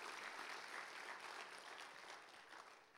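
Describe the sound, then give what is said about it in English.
Applause for the senior pastor at a church service: steady, faint clapping from many hands that holds evenly, then gradually thins and softens toward the end. “Yeah, let's give our senior pastor a hand.”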